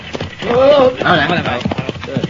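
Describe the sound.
Horses' hooves clop as riders go by in an old western setting, a run of hoofbeats partly buried under people talking.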